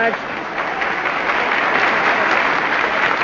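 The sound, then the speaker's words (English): A studio audience applauds, a thick wash of many hands clapping that stays continuous and fairly loud and builds a little toward the end. “Now, please don't applaud too much now. You may tire later on when the script gets thin”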